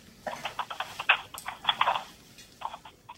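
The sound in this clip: Typing or writing during a call makes a string of many light, irregular clicks and taps, clustered in short bursts with brief pauses, fairly faint and with no talk over them.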